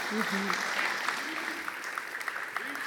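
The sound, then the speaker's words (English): A church audience applauds a guest preacher with soft, steady clapping that runs throughout and thins slightly toward the end. A voice is briefly heard at the start. “So would you give her a hand as she speaks to us?”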